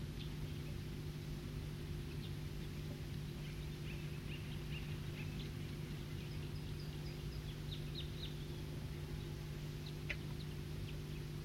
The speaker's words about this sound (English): So recording some wild birds here.